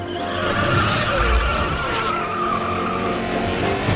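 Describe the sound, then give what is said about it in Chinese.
Tyres spinning in place on a stationary racing car, with clutch, brake and throttle worked together to heat the rubber: a loud, steady engine roar blended with harsh tyre squeal, sustained without a break. “其实就是利用离合、刹车跟油门同时运作的方法，让轮胎在车辆静止情况下也像在路上运行般，从而快速让轮胎升温。”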